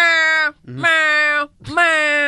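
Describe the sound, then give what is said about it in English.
Cats meowing in a montage: three long, loud, sustained harmonic meows follow one another, separated by short silent gaps. “I found a montage of cats just meowing.”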